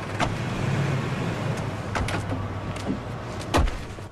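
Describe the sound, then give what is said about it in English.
Car doors clunking as three people get out of a car in the car park of the Miami Customs Office: several sharp clicks and thuds at irregular intervals over a low steady hum, the heaviest thud coming near the end. “Brian, Pierce, and Bilkins all get out of the car.”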